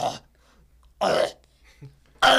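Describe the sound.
A human voice imitates a pig struggling to breathe, with short, rasping, throaty bursts separated by silence.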